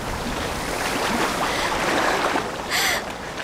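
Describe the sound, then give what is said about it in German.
Icy water masses crash over a ship and break it in two: a loud, steady rushing roar of surging water, with a brief brighter splash burst near the end, and no voices. “Die Möwen flogen kreischend auf. Und eisige Wassermassen brachen die Hurricane in 2 Teile.”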